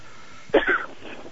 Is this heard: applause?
no